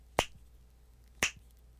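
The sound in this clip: Two sharp, crisp finger snaps about a second apart, each a bright click with a quick decay, heard alone with nothing else around them.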